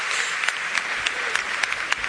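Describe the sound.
Audience ovation for a Radio Nacional announcer: dense, steady clapping that stays loud throughout, with voices mixed in.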